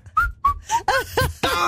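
Whistling in six short, loud, clear notes, the first few sliding slightly downward in pitch, heard alone without talk.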